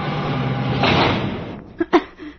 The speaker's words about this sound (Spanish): Breves instantes más tarde, Diana Morris acciona de nuevo en los alambres y hace subir al elevador, cuya puerta se abre.